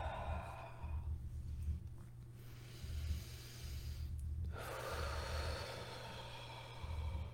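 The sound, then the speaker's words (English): Slow breathing in and out during meditative breathwork, with long, soft, airy breaths separated by short pauses over a low, steady hum. The breathing is faint throughout. “Just continue to breathe in and out.”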